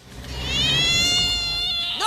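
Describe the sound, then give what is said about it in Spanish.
A cat gives one drawn-out, fairly loud meow, holding a steady, slightly wavering pitch before it trails off, with a brief rising squeak at the very end. “Ojo con el gato.”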